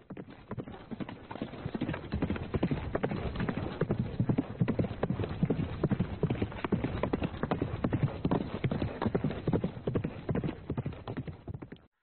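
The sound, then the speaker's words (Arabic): Hooves of a mare clip-clopping as she dances, turns and spins lightly with a rider on her back: a quick, continuous patter of many hoofbeats throughout. “ركبت دانة ظهر شهباء لتتراقص بها مهرتها بخفة ورشاقة، وتلف وتدور وتصهل بصوت جميل”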